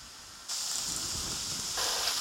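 Vegetables cooking in a pan give off a steady, bright sizzling hiss that jumps louder after a moment and swells again toward the end.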